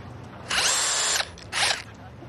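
A power screwdriver drives screws while its user stands on a ladder, giving two loud whirring bursts, a long one followed by a shorter one, with nothing else prominent.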